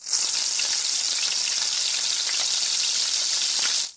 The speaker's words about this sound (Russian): Добавьте зеленый лук, хорошо перемешайте, вот так обжаривая еще минутку.